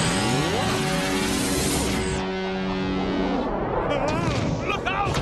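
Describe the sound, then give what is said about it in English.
Cartoon plates thrown hard enough to explode, heard as a dense, loud, continuous barrage of blasts and crashes layered with tonal, ringing sounds and chirping effects. “I know he throws those plates so hard they explode”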